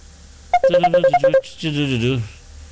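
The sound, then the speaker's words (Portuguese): Incoming WhatsApp call ringtone: a quick run of about eight bright, melodic electronic tones, followed by a short, wavering voice-like sound. “Mas tem gente ligando aqui. Gente da gente que tá ligando aqui no WhatsApp da rádio.”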